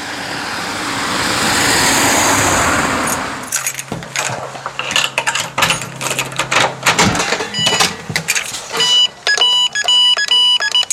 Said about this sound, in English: We've had about 20 cars. There's another car coming now.